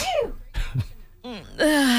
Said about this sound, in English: And ironically, right about the time the text came in, you sneezed.